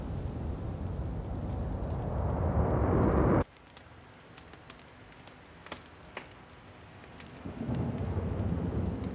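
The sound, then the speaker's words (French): A thunderstorm raging outside: heavy rain and deep rumbling that cut off abruptly to sparse ticking drips, before the downpour swells back in near the end. “Un battement d'ailes provoque la fureur de l'orage au dehors.”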